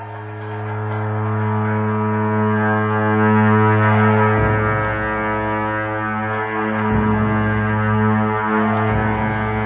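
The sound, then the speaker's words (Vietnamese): A deep, unbroken drone comes from a pair of ritual horns blown in turn. The rich, buzzing low tone holds steady and loud throughout, swelling slightly at a few points. “Hai nhạc công thay phiên nhau thổi làm sao để âm thanh trầm này không bao giờ dứt, và bất cứ bản nhạc nào cũng khởi đầu và chấm dứt bằng âm thanh của cặp tù và này.”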